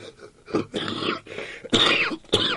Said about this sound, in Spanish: Les pido perdón por esta tos y este catarro